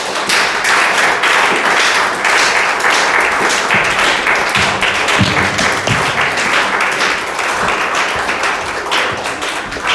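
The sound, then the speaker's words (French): A church audience claps loudly and continuously in acclaim of the Lord, a dense, even patter of many hands that never lets up. “Si tu es content, acclame le Seigneur.”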